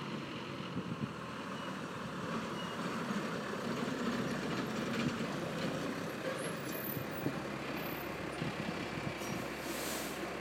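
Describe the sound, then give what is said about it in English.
A vehicle labours up a steep hill near a small town's main square, its engine giving a steady, continuous low drone with no talk over it. “vehicle labouring up a rather steep hill just to the north of me here.”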